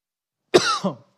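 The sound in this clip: A preacher mid-sermon with something caught in his throat gives a short cough that runs into a throat clear, loud and alone against silence.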